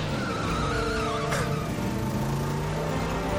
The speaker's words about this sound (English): A very slow accelerating.